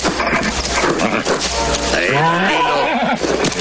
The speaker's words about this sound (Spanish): en el interior de un establo, un hombre tira de un caballo. Este se mueve nervioso.